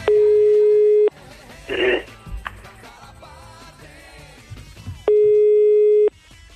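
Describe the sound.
A telephone rings on a radio call-in line: a steady one-second ring tone opens and another closes the stretch, with a busy mix of other sounds in between.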